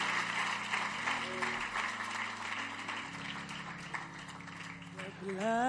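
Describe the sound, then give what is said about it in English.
Congregation clapping in church as people return to their seats before communion, a steady patter of many hands under sustained instrumental tones, continuing throughout at moderate loudness. “Clap for them.”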